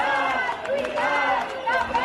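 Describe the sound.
Protest crowd in Plaza de Sant Jaume, Barcelona, on a strike day in Catalonia's education sector: a dense, steady mass of many voices, loud throughout.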